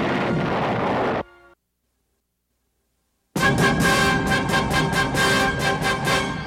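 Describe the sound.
Spaceship weapons firing in a Buck Rogers science-fiction space battle: a loud roaring burst, a gap of silence, then many rapid, buzzing laser-like shots in a steady pulsing rhythm.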